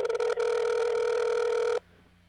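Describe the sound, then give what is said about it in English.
An outgoing telephone call ringing: a few brief choppy tone bursts, then one loud, steady electronic ringback tone that holds for about a second and a half and cuts off abruptly into near silence. “Sure. Let's see if Brendan picks up.”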